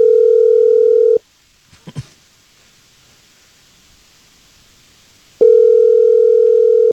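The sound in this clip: Telephone line tone while a live morning radio show places a call: a loud, steady tone cuts off, a couple of soft clicks follow, then a long silent gap before the same steady tone returns.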